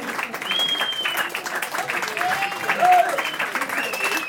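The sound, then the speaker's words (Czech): Audience applause at a live event: sustained, even clapping from many hands that holds at a fairly loud level throughout. “A tak můžeme tleskat třeba. Víc.”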